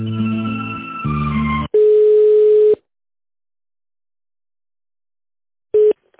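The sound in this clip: Phone line tones play while a call is being transferred: a short run of melodic hold tones, then one longer steady beep. After a stretch of silence, a single brief beep follows. No one talks.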